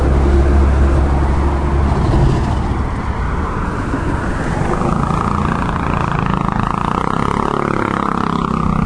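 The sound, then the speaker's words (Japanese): A motorcycle engine passing loudly, heard as a broad, steady roar that fills the whole clip with no break and no voices. “非常にね大きい音でバイクの音が入ってるでしょ。バイクのバルバルバルバルって言うんですかね”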